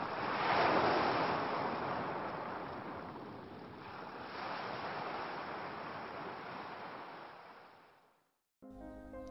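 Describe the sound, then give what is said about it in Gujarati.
A sea wave rolls in and breaks against rocks: a long, loud, hissing roar of surging water that swells, eases midway, surges again and then fades away to silence. “દરિયાનું મોજું આવ્યું”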